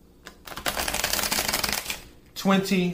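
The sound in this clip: A deck of tarot cards is shuffled for a reading. A dense, rapid riffling patter runs for nearly two seconds, then a voice begins speaking right after.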